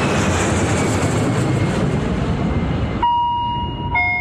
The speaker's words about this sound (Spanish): Vamos a viajar. Ha de despegar el Boeing 630.